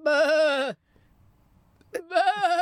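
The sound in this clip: Voice imitating a sheep's bleat for animal dubbing: two loud, wavering, nasal bleats separated by a short, near-silent pause.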